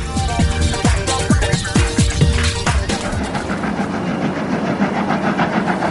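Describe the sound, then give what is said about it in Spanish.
Steam locomotive train in motion: rhythmic chugging bursts for about three seconds, then a steady, dense rumbling rush of noise. “La locomotora sigue avanzando.”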